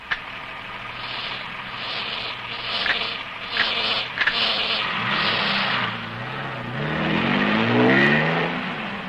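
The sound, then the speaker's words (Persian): A car pulls away in first gear. The engine hums steadily at first, with a few sharp clunks, then its note climbs as it revs and accelerates toward the end. “بذارین تو دنده یک و را بیفتیم.”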